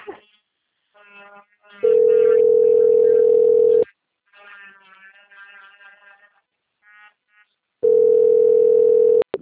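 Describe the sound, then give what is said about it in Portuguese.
A telephone's calling tone sounds twice as loud, steady, mid-pitched beeps about two seconds long, with people talking quietly in the gaps between them. “Estou ligando nesse telefone para falar com o Leandro”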